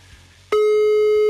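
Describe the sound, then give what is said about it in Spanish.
A telephone busy signal while a number is dialed: after a short stretch of quiet line noise, a loud, steady tone cuts in abruptly and holds unbroken to the end. “Estamos marcando a Elisua o Elisa.”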